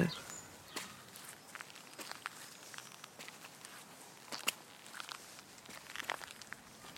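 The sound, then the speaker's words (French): Slow footsteps fall on the ground outdoors as soft, scattered crunches and rustles, faint and irregular, with quiet talk at times. “Ralentissons encore notre marche, tu veux bien ? Pour bien sentir le sol sous notre pas.”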